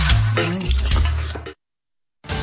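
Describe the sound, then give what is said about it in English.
Stirring and clinking dishes while cooking lunch: busy kitchen clatter with scraping and ringing knocks runs for about a second and a half, cuts to brief silence, then resumes. “Cooking. Gonna cook me some lunch, yeah.”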